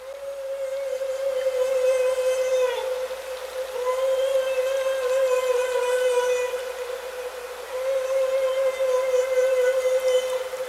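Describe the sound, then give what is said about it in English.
A whale call used to scare fish sounds as three long, steady tonal whistles with strong harmonics, each lasting a few seconds and separated by short gaps, over a faint noisy background. “What is this whale communicating? That's the fish scaring sound.”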